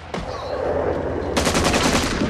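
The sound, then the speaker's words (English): Gunfire from rebels: one sharp shot cracks out, then a dense, rapid burst of automatic fire follows and keeps going, loud and harsh. “The rebels open fire.”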